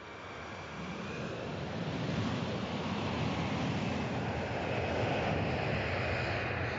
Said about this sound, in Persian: در حالی که هواپیمای 380 برای پرواز در نمایش هوایی پاریس آماده می شود